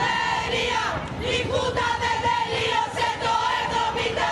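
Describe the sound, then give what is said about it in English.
Crowd of protesters in the streets of Athens, Greece: many voices shouting together in a loud, continuous roar, with raised voices rising above a dense, steady mass of sound. “That's the sound of Greece at a turning point.”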